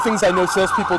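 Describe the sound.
An ambulance siren in Toronto, Canada, passes by, its wail rising and falling in quick repeated sweeps. It is loud and steady beneath a person talking throughout.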